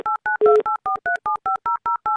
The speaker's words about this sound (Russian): Набран номер телефона, естественно, нам нужен гимн Авторадио.